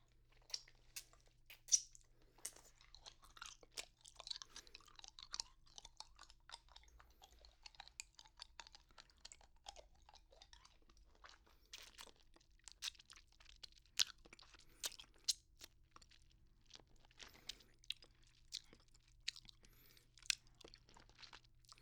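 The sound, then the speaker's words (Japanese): Soft, wet mouth sounds of someone licking and eating hard candy, with many small clicks and crunches scattered irregularly over a quiet background and no talking. “こういう音好きです？よく聞いたりするんでしょうか？私は飴を舐めてるだけで美味しいですけど、”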